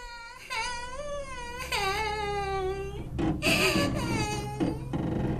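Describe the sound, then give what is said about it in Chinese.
A child crying in long, wavering wails that rise and fall in pitch, with short breaks between cries, heard over steady low rumbling noise. “我听到啊，头前有囡仔在哭的声。”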